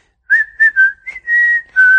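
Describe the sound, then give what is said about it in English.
A man whistles a whistled language: a string of clear, high, piercing tones, some short and some held, gliding slightly in pitch and broken by brief pauses. “And usually the language is only whistled by men.”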